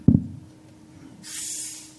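A pressurized plastic soda bottle, charged to about 30 PSI, is cracked open: a dull low thud comes first, then a steady, moderately loud high hiss of escaping gas starts and holds to the end.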